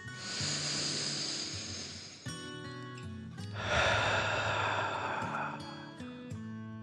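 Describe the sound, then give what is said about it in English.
Slow breathing in and out during a guided relaxation exercise: two long, airy breaths heard over soft, sustained music tones. “Let your arms float down and breathe in and out.”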